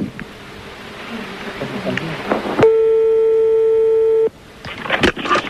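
Ringing tone of an outgoing telephone call, a single long, steady, pure-pitched beep lasting well over a second, loud and even, with noisy background sound before and after it.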